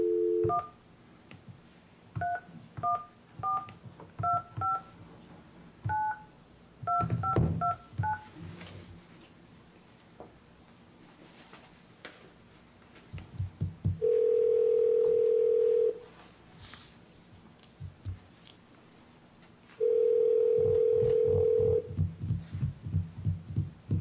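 Telephone dialing tones: a quick run of many short touch-tone beeps, then two long steady tone bursts separated by a gap, over a low background rumble.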